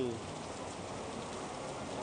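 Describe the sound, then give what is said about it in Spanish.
Heavy rain pours down in the city after smoky days, forming a continuous, even hiss of dense drops. The sound stays fairly soft and steady for the whole short stretch, with no distinct voices. “Esta lluvia que se registra, eso sí, impacta realmente cómo cambió todo de un momento a otro y se puso a llover así de fuerte.”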